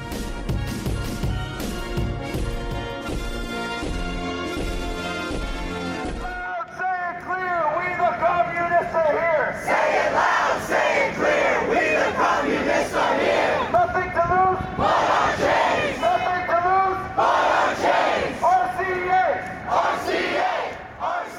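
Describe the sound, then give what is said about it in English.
A crowd at a communist march in downtown Brooklyn, New York, on February 25 chants loud, rhythmic slogans in repeated bursts. Brief music comes before the chanting begins. “This is the sound of the Communist March that we organized in downtown Brooklyn, New York on February 25th,”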